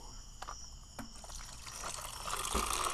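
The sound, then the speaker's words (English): Liquid pouring as a margarita goes over ice: a soft, steady hissing trickle that grows louder toward the end, with a few faint clicks early on. “Ladies and gentlemen. Quietness. This is the sound of a pour.”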